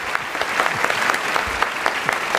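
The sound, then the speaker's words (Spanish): Lively applause from a live audience for the two guest performers of the night, who sang Lord and Lady Macbeth. Distinct sharp claps stand out within a brisk, steady patter of hands. “el aplauso para tus dos invitados de hoy”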